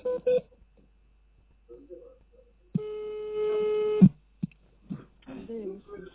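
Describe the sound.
Touch-tone beeps of a telephone number being dialed during a prank call: short electronic tones and a sustained steady tone lasting about a second, with voices murmuring before and after.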